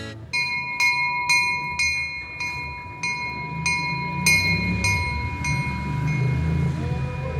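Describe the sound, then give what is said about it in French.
A train pulls out of the station at Lourdes. A bright bell dings in an even, repeating rhythm and slowly fades, while a low rolling rumble builds underneath. “Alors là, on sort de la gare de Lourdes.”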